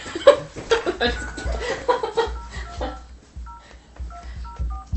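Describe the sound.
Telephone keypad tones as a number is dialed: a few short, clipped two-note beeps in quick succession follow a stretch of talk, sounding clear and steady against a low background rumble.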